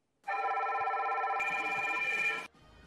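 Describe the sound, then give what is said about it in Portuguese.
A telephone rings in one sustained electronic burst lasting about two seconds. The tone is steady and bright, grows slightly fuller partway through, and cuts off abruptly. No one talks over it. “o Big Fone? Alô?”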